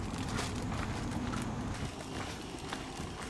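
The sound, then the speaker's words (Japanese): Footsteps of someone walking in slippers, a steady run of soft scuffing steps over continuous background noise. “スリッパで今歩いてんすけどなんかもう靴ずれして痛いし帰られへんわ”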